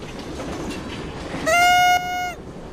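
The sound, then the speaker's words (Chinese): A train approaches on the up line toward an accident site. A low rail rumble builds into a loud, steady, sustained horn blast of just under a second, which then drops off. “上行210-32列车接近事故现场。”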